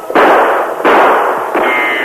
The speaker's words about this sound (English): I'll try a quick shot.